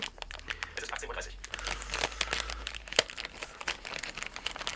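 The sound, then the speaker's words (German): Crinkling of a small plastic bag holding a European power adapter as it is handled, a busy run of soft, crackly rustles with one sharper snap partway through. “Und in einem kleinen zweiten Tütchen ist dann der entsprechende korrekte Adapter für Europa.”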